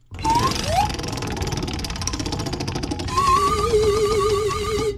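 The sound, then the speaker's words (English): A prize wheel spins for a game draw, giving a run of rapid ticking over shifting electronic tones, with a wavering, warbling melody in the later part. “Spin the Wheel of Destiny,”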